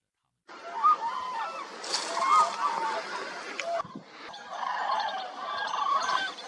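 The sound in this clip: Cranes calling at their wintering ground on the Niyang River in Nyingchi, Tibet: many overlapping honking calls from a large flock, with a watery, splashing background, continuous apart from a short dip midway.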